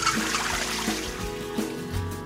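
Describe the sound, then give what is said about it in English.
Water trickles and pours as blanched green beans, just out of an ice bath, are drained. A short, continuous splashing flow runs at moderate loudness with no talk. “I'm gonna drain my green beans now. They are so bright, thanks to that ice bath.”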